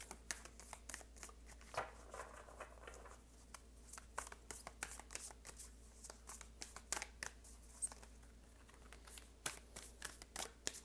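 Tarot cards are shuffled for a reading, giving many quick, soft riffling clicks that stay fairly faint throughout, with no talking.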